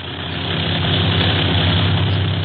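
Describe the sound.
Aircraft engines of a clipper flying boat in flight several hundred feet above the sea drone steadily at a low pitch, a continuous dense roar with no voices.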